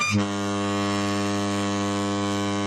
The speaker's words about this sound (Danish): Åh, det er færgen til Bornholm.